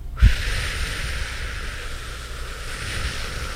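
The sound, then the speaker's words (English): A long, slow exhalation during a calming deep-breathing exercise, heard as a steady, breathy hiss that runs for several seconds after a brief low puff at the start, with no talk. “let's all take a deep breath in, and your belly rises, so it's deep. And an exhalation as long as you can, like you're keeping up a little feather.”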